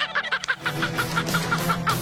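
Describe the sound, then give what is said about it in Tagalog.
A healthy chicken clucks in a rapid, even series of many short calls, steady in pitch and fairly loud throughout. “Oh, himsog nga manok, ha?”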